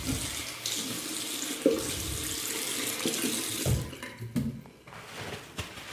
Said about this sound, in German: Boah, schön sauber noch hier. Hände waschen.